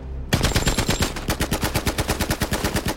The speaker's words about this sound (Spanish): ¡Abran fuego! ¡Abran fuego! ¡Abran fuego!